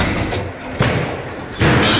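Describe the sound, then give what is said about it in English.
Heavy thuds of footballs fired at up to 60 mph by Dortmund's ball-launching training machine, the knot, with a few loud thumps cutting through a steady background hum. “To sharpen his skills, Dortmund uses this, the club's creation called the knot. It is German engineering at its most twisted. Balls are fired as fast as 60 miles an hour.”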